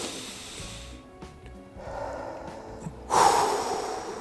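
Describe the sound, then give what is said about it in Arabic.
A deep breath is drawn in and let out through the mouth as a slow calming exercise against anger, heard as soft, airy rushes of breath with the last one louder and fuller. “هلا التنفس لما ناخذه من الشهيق بنطرحه عندنا طريقتين من الطرح يا اما من التم وهي الطريقه الاسهل فتنفس معي”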